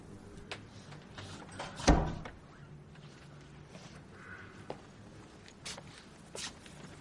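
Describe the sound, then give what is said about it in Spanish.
A house's front door being opened, marked by one sharp knock of the latch or handle, followed by quieter scattered clicks and rustles, with no talk. “Al poco Agustín le abre la puerta de casa.”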